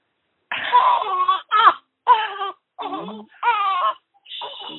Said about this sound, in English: The baby wakes up while we're talking.